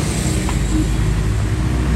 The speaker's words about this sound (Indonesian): Itu masih ada angkot. Mas, tunggu.